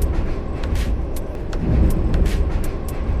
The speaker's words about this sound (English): As I rode the Green Line here in Washington, D.C. to meet her, I made these audio notes to remind me what I wanted to ask.